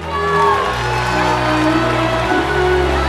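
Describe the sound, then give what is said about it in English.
Crowd cheering at a NASCAR race featuring VW Bug cars, a loud, continuous roar of voices over a steady low drone that holds for the whole stretch. “Her friends in the crowd cheer Maggie on.”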